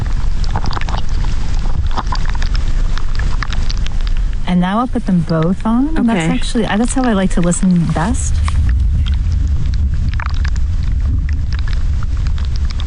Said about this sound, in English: What you're hearing is these plants, as they move, like their roots shift underground, and then that movement is registering in the microphones.